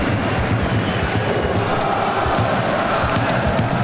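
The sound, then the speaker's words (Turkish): A stadium crowd at Fortuna Arena in Prague applauds a football player during a match, a loud, dense and steady roar of crowd noise that holds evenly for the whole stretch. “Prag'da alkışlar adam Loşek'e.”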